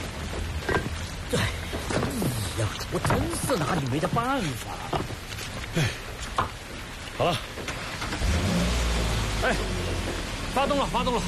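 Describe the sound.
Car engine starting on a muddy mountain road after the car was stuck in a mud pit. A low, loud rumble begins late and keeps running while people talk throughout.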